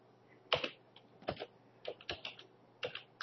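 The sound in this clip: Sparse keystrokes on a computer keyboard as a file number is typed in: a handful of sharp, separate clicks at irregular intervals, with no talk.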